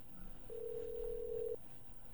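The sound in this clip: A telephone ring tone sounds as an interview call is being connected: a single steady, faint tone lasting about a second over a low background hiss.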